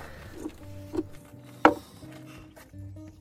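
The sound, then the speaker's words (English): Hazelnuts are crushed with the side of a knife, giving a few sharp, spaced cracks and crunches. One snap is louder than the rest, and the sound is fairly quiet with no talk over it. “And then I'm going to chuck in a handful of hazelnuts. I'm just going to crush them with the side of a knife.”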